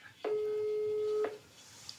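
A single ringback tone from an outgoing telephone call, a steady, even buzz lasting about a second before falling quiet.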